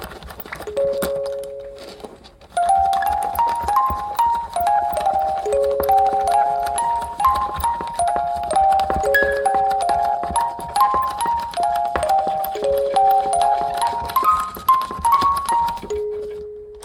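A music box plays a quick melody of bright, plucked metallic notes in a steady, even rhythm after a few sparse opening notes. It ends on a single lower held tone, with no voices.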